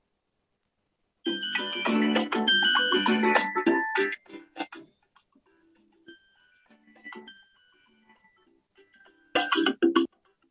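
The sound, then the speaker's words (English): A prize wheel spun for a gift card giveaway: a dense burst of bright electronic chimes, then sparse ticks that thin out, then a short final flurry of chiming tones. “And let's spin the wheel.”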